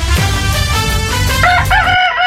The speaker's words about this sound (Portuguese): E é o galo da antena que canta. Esse galo não perde a hora, pontualmente 6 horas da manhã aqui na antena Ponta Grossa.